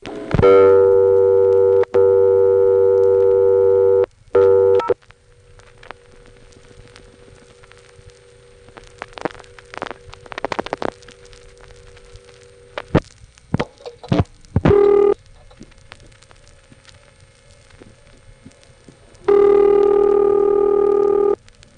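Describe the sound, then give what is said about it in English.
A payphone blocking a dialed zero without a coin, then accepting it after a coin is inserted: a loud steady tone, many clicks and rattles, a brief tone, then a final loud steady tone. “picking up a phone and trying to dial zero, first without a coin, and you can see the phone is preventing it. Then he puts in a coin, and it works.”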